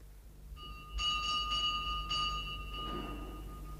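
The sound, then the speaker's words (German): A bell pulled at a rectory door gives a bright, jangling run of ringing tones lasting about two seconds, then dies away. The ringing stays fairly faint throughout. “zum Pfarrhof rannte und an der Glocke riss.”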